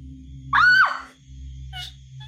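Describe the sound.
A man screams in fright at the sight of a ghostly, bloodied boy. The single loud, high cry rises and then drops off over a low steady hum, and a faint, shorter vocal sound follows.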